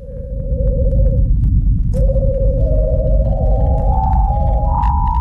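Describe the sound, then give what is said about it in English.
A radio emission from the upper atmosphere of Venus, caught by the Parker Solar Probe flying through it in July 2020 and converted to audible sound. An eerie whistling tone climbs in small steps over a loud, constant low rumble. “This is the sound of Venus.”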